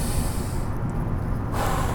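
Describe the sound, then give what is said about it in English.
A deep, noisy breath taken as part of a guided breathing exercise, a steady rushing hiss of air lasting about two seconds that shifts in tone partway through, with no talk. “take 3 big breaths. That's as simple as it gets. 3 big breaths.”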